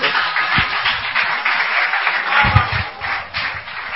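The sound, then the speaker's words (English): An audience applauds to welcome a speaker, giving a steady wash of clapping with a few heavier low thumps mixed in. “Put your hands together and welcome.”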